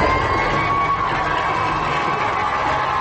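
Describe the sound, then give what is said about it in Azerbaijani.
A huge crowd lining the streets of Baku cheers in a steady, loud roar of mixed shouting voices that holds without break. “Yol boyu onu ucu-bucağı görünməyən saysız-hesabsız xalq kütləsi şallıq və minnətdarlıq sədaları ilə alqışladı.”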